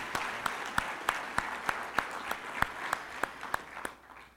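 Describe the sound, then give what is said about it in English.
Applause from a church audience thanking someone: soft, fairly quiet clapping with a steady, evenly spaced beat of sharper claps running through it, fading out at the very end. “And let's say a word of thanks or a round of applause.”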